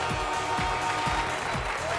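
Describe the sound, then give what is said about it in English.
Crowd cheering and applauding at a hot dog eating contest: a dense, steady roar of clapping and voices that stays loud and even throughout. “Look at the crowd goes wild.”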